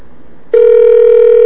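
Telephone line tone while a call is placed with a carrier access code: faint line hiss, then a loud, steady, mid-low tone that starts abruptly and holds unbroken to the end.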